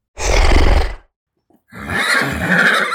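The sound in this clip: A pony neighing in two loud, harsh, rough-edged bursts separated by a brief silence, the second burst more strained and higher-toned than the first.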